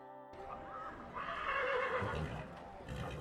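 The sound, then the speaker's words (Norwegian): A horse neighs in a guest stable, a loud, harmonic whinny that swells and wavers over a few seconds before trailing off. “Vi blir med Erlend ned i gjestestallen.”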